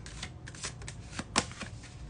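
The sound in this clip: A deck of cards is shuffled before a card is drawn for the week. Faint riffling bursts recur several times, with one crisper snap of cards near the middle.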